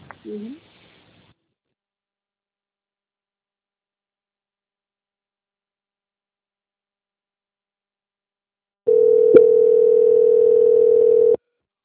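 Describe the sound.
A telephone line tone while a call is being transferred: one steady, sustained mid-pitched hum lasting a couple of seconds, coming after a brief voice fragment and a long silence.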